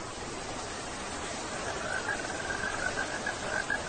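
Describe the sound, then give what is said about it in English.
Rain falling: a steady, dense hiss that stays even throughout, with a faint, thin chirping tone appearing in the latter half. “I told you. It's raining.”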